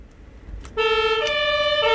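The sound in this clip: A fire engine siren in Münster switches on abruptly after a brief low rumble. It blares loud and steady, shifting between two pitches in a two-tone wail.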